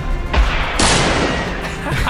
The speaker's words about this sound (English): Play the gunshots. I don't have control. Play the gunshot.